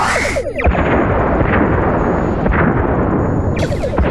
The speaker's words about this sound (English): Fire on all enemy ships. One photon each should do. Let's not waste ammunition. Target locked and acquired on all warbirds. Firing.